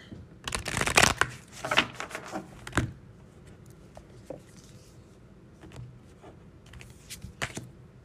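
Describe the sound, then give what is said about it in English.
Cards from an oracle deck are shuffled and drawn. A quick, rustling riffle comes first, then a few softer shuffles and light taps and slides as cards are pulled, all quiet and with no talking. “let's pull an oracle card here from the Women of Myth Oracle deck”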